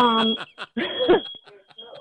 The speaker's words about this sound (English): The smoke alarm is going off in my house.